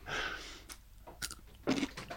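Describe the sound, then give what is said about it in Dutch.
Crunchy chewing of a French cornichon pickle: a few crisp, wet bites and munching in short, moderately loud bursts with pauses between them, and no talk over it. “En ik eh. eet nu een fantastische Franse cornichon.”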